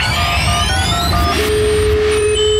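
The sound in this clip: A telephone ringback tone on a call to a hotline, a steady mid-pitched tone that starts partway through over a loud, noisy background with other high electronic tones.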